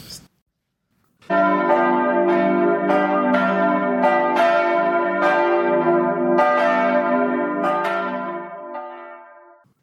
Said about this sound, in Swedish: Där har klockorna ringt in